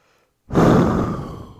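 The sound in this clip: A deep breath drawn in during a smartwatch guided breathing exercise. It begins abruptly after a moment of silence, rushing and airy, loudest at the start and then gradually easing off.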